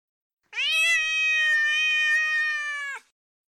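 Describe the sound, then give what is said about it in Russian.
A cat meows once, in a single long, drawn-out, high-pitched call that holds steady for about two and a half seconds before stopping, heard alone and clearly. “Это еще что такое? Это моя кошка.”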